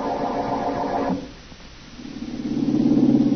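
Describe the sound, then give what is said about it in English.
A car engine rumbles low and steady as it drives out along a country road, dips quieter for a moment, then swells back up louder and thicker with a throbbing hum. No voices are heard. “As we return to our story, Blackie is tied up and the woman is driving him out into the country.”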